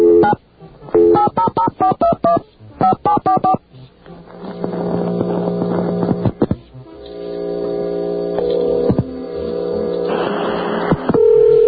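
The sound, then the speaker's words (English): Touch-tone telephone dialing: a quick run of many beeps in two bursts, followed by longer sustained electronic tones on the line. “Oops. I dialed the wrong thing.”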